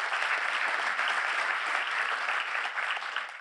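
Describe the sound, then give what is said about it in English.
Audience applause at an evening lecture event honouring council members: dense, steady clapping from a large crowd, holding an even level throughout without voices. “For all their great work and support, let's give them a hand.”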